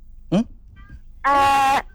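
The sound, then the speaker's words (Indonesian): A kitten meows twice, a brief high-pitched mew followed by a longer, steadier cry, both fairly loud against quiet background. “Yang anak kucing, ya. Itu anak aja”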